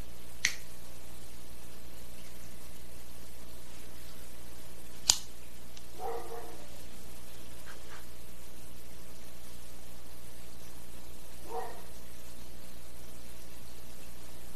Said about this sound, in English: Let's go ahead and cut the stick, see what the cold draw is like.